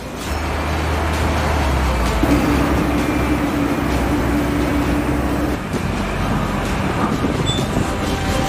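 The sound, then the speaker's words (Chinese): A driverless mining truck starts and moves slowly along a preset route toward traffic cones. Its engine gives a steady low rumble throughout, with a thin sustained whine through the middle of the run. “无人驾驶的矿车缓缓启动，沿着早已设置好的既定路线向锥筒开来。”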